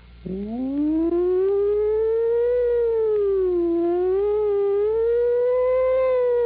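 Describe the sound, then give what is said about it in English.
A wailing siren from a police car, fire engine or ambulance, heard in the distance, rises quickly at the start, then holds a loud, steady, slowly wavering wail that dips and climbs again, with no talk. “the sound of a distant, approaching, and receding siren. Squad car, the police, the fire department,”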